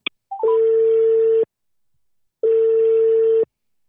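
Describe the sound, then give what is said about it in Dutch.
A telephone ringback tone sounds during an outgoing call: two steady, single-pitched beeps, each about one second long, separated by a second of silence and preceded by a faint click. “Dus wij gaan even bellen naar Nathalie Kindermans.”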